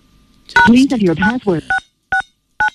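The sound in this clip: A voice speaks briefly, then three separate telephone keypad tones sound alone, evenly spaced beeps of the kind used when dialing a USSD code such as 821 hash.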